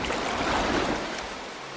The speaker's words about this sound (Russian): Какой страшный шум. Кашалот бьет хвостом по воде. Волна сильная, как в бурю.